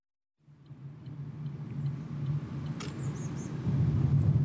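A car drives through a palace park, its steady low engine and road rumble starting abruptly and holding as a dense drone that grows louder toward the end. No one speaks.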